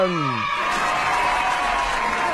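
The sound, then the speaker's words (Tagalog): Audience applause greets a singer introduced to perform a Christmas song on a radio program. A short voice is heard at the start, then a steady, dense patter of clapping continues to the end. “Mga kasama, palakpakan Ma'am Rona Mahanduko!”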